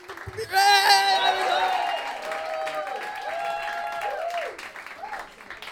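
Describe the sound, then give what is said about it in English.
Audience cheering and applauding as a comedian comes on stage: a loud burst of clapping with sustained vocal whoops that swoop in pitch, easing off toward the end. “Beautiful cheering, congratulations.”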